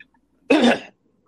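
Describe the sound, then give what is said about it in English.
A single sharp cough, heard alone with no talk: one short, harsh burst lasting under half a second, with silence before and after. “What a time to have to cough.”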